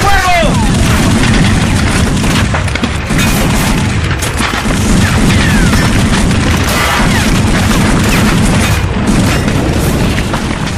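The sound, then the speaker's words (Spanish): Schmeisser submachine gun fire in a battle scene, loud and relentless, with rapid bursts of shots mixed with heavy booms that fill the whole stretch without a pause. “tío materno de Arturo Signagel, salió a descubierto disparando su ametralladora Schmeisser”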